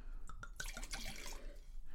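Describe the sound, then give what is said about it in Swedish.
Chardonnay poured into a larger wine glass: a faint, brief liquid trickle with a few light drips and small clinks. “Ja, då ska vi hälla på lite mer då.”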